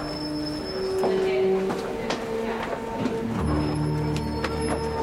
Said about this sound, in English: So Steve, I'm taking you up in our mood elevator.